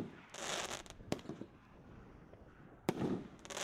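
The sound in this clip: Silver coconut firework cake of 16 shots firing, faint overall, with a few sharp bangs over a continuous fizzing crackle that rises and fades between the launches.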